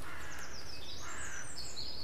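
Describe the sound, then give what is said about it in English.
Woodpecker calls from two birds: several short, high, faint calls scattered over steady background noise. “three or four calls. It's two woodpeckers.”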